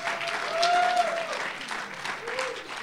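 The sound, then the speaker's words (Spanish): An audience applauds during a church sermon with a faint, even patter of clapping from many hands that stays low and steady throughout. “Dele fuerte ese aplauso al Señor.”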